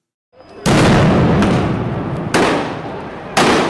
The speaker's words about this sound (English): The police have started throwing grenades. The riot police here at the Independence Square, where the opposition march was meant to take place.